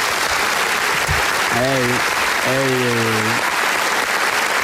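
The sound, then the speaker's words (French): A live audience applauds wildly with dense, steady clapping. A drawn-out vocal tone rises over it twice, and the clapping continues alone between and after. “Quel public en folie. Calmez-vous.”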